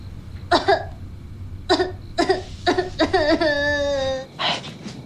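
A person crying in sobs and whimpers: several short, breathy, wavering bursts, then one longer drawn-out wail and a last shaky sob, fairly loud over a quiet background.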